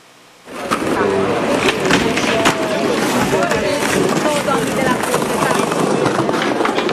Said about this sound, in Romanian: Bulevardul a devenit o pistă uriașă de skateboarding.